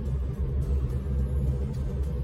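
A car engine rumbles low and steadily while driving. The deep drone stays constant for the whole stretch, with no talk.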